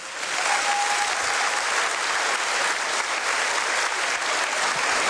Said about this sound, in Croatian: Molim vas, pljesak za Paola Kaštelana, prije njega za Doru Bokulić.